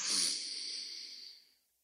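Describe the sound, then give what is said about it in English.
A single breath out through one nostril, with the other held closed, during an alternate-nostril breathing exercise. It is one airy hiss that starts fairly loud, holds, then fades away over about a second and a half. “Okay, so breathe in on your left nostril and close the left nostril and breathe out your right.”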